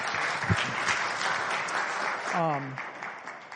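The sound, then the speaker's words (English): Light, polite golf-clap applause from an audience at a family talk, a soft, steady patter with a voice briefly rising above it. “Let's give her another golf clap.”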